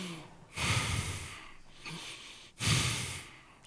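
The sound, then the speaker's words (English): Three breath sounds used to demonstrate breath before a chant: a strong breathy rush, a quieter, shorter one, then another strong breath, each separated by a brief pause. “But breath, the best way to understand breath is the sound, right?”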